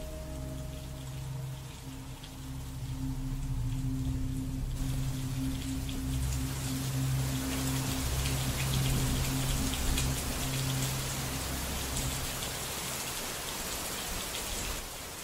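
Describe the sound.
Heavy rain pours down in a dense, steady hiss that swells louder after the first few seconds and stays strong to the end, with low sustained tones humming underneath during the opening part.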